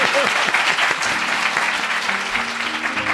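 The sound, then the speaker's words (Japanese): Audience applause at a public live taping with roughly 130 to 140 people present: dense, steady clapping that keeps an even level from start to finish. “今日は公開収録ということは、どうぞ拍手。”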